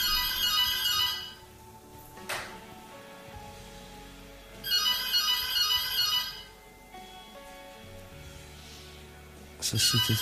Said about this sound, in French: Non, mais là, ça sonne encore et t'es décroché. C'est strange. C'est pas toi, là? Mais si, ça sonne là.